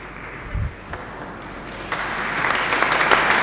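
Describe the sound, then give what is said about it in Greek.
Audience applause at a degree presentation ceremony, starting thin and scattered after a dull thump, then swelling into fuller, steady clapping through the second half. “Πάντως, χειροκρότημα για τον Ίκαρό μας.”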